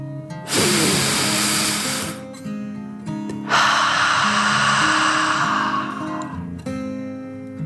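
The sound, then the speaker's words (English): Deep, forceful breathing in imitation of a dragon: a long, noisy rushing inhale, then an equally long breathy exhale. Steady, sustained tones sit underneath. “They took another deep dragon breath, in and out.”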